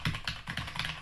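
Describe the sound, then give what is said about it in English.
Rapid typing on a computer keyboard, with loud, sharp key clicks in quick irregular bursts that fill the short clip without any talk. “Oh, also like the sheer volume of typing on this is it's so sometimes loud. It's distracting me.”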